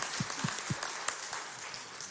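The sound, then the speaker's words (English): A church audience claps at a children's lesson about prayer, producing a fairly faint, loose patter of hands with a few sharper separate claps scattered through it. “I think we better clap for God, yeah?”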